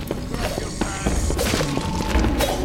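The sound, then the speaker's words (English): Blunt, crunching blows strike a zombie's head in a video game, several heavy thuds and smashes scattered over a dense, noisy game soundscape. “someone is doing a great job of bashing a zombie's head in, which is awesome indeed”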